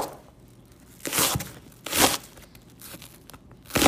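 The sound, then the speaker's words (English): Chopped onions tumbling into a cooking pot while making haggis, giving a few rustling, crunchy bursts of scraping and crinkling separated by quieter gaps of soft background noise. “Putting in the onions.”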